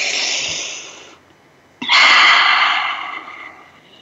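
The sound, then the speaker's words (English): A deep, airy breath fills a guided pause: a long, soft rush of air, then a short quiet gap, then a sharp, loud intake that fades slowly over about two seconds. “So let's take a moment and just breathe that in.”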